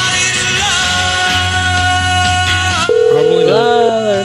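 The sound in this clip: An unanswered telephone call sounds as a steady electronic tone with layered harmonics, holding for about three seconds before switching abruptly to a different, shifting pattern of tones.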